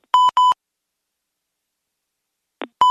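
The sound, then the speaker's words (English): Phone line disconnect tone: three short electronic beeps, two close together at the start and a third near the end after a long silence, with a brief faint chirp just before the last. “My phone gets disconnected.”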